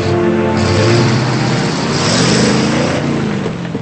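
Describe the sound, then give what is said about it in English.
A Jeep engine drives away, a loud, steady motor rumble throughout with no voices. “then Patrick gets into the Jeep. I love you, Patrick. Patrick drives away.”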